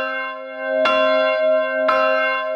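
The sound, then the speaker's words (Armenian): Armenian church bells ring with two distinct strikes. Each strike blooms into a rich, sustained metallic hum of layered tones that carries on between the hits. “Այսօր հայոց եկեղեցու զանգերը առավոտից ձայնում են աշխարհով մեկ։”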